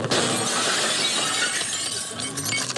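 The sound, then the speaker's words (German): A glass door of a radio shop is smashed in at night: a loud, dense burst of shattering glass and tinkling shards that continues without a pause for the whole stretch. “Es geht los mit einem Bruch. Drei Männer schlagen nachts die Glastür eines Radiogeschäfts ein.”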